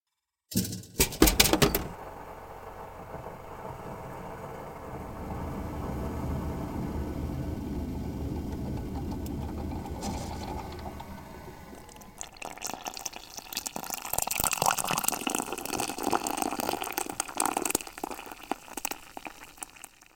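Making a cup of coffee in a coffee shop: a busy stretch of clattering, tapping and trickling, pouring liquid. A sharp burst of knocks comes near the start, then the sounds grow denser and louder toward the end, with no talking.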